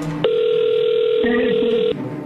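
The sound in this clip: A steady telephone tone plays as a call is dialed. It holds one even pitch for about a second and a half, then cuts off. A low, continuous background runs underneath throughout.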